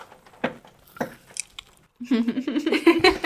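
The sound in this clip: A cookie is eaten right up against the microphone, giving a few crisp, squishy bites and chews over a near-quiet background, followed by people talking.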